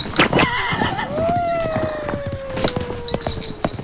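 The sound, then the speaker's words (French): A pony neighs in a long whinny that slides slowly downward in pitch, surrounded by scattered sharp clattering sounds that may be hooves. “est-ce que cela te ferait plaisir de faire un tour de poney ?”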